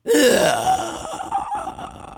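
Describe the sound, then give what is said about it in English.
A ghostly, breathy inhaling creature sound performed by a human voice: a drawn-in gasp whose tone rises, then trails into a softer, rasping tail, heard alone without talk. “That's just kind of a ghostly inhaling kind of sound.”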